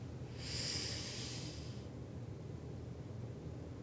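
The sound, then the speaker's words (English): One long, deep, airy breath during a breathing exercise rises and then fades into steady, faint hiss, with no voices. “Long inhale, then we're going to hold, and a long exhale.”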